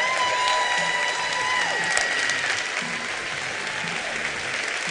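Sustained audience applause welcomes a panel onto the stage, a dense, loud wash of clapping that holds steady for the whole five seconds.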